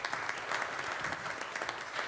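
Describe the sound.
Applause from a church audience during a service, a steady wash of many hands clapping at moderate volume with no voices standing out.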